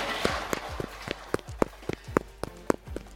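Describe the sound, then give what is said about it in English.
Quick running footsteps of someone in a yellow hazmat suit: a steady series of sharp, evenly spaced thuds lasting about three seconds. “Did someone just run by wearing a yellow hazmat suit?”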